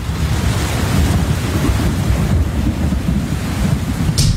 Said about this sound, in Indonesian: Ya, hujan.